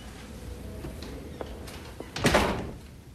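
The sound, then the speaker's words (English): A door opening onto a corridor: a few soft clicks and knocks, then a louder, brief rushing rattle as it swings, fading out afterwards, with no voices. “She goes to the door.”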